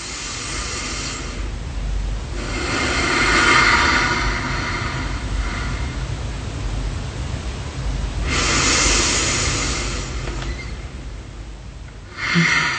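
Slow, deep belly breathing in and out, with long, soft, airy inhales and exhales swelling and fading in a steady, unhurried rhythm across a few breath cycles.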